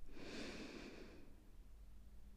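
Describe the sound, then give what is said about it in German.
A deep breath drawn in through the nose, a soft airy rush lasting about a second before it fades into quiet, faint and alone. “Und nun nochmal tief einatmen.”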